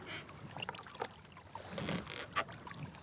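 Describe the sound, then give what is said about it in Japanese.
Faint watery sloshing and scattered light knocks from a boat moving on the water in fog, irregular and soft at a low, hushed level. “ここはどこかしら。霧？船？”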